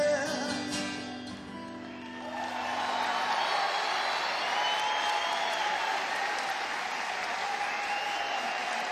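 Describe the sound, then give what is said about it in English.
Audience applause at a live rock concert as a song ends, the clapping swelling after a brief dip and then holding steady and full from many hands, with some crowd noise mixed in. “You'll have to clap louder than that when the Kinks come on, I tell you.”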